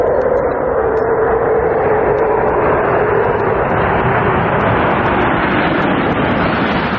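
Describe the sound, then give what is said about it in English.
Steady, loud, wind-like roar of a spacecraft on final approach to runway 15 with its landing gear down and locked. The continuous rushing noise holds without distinct events or breaks throughout. “You see that runway 15? And now we're looking at it live. Approaching there. The pre-flare maneuver executed. Landing gear down and locked.”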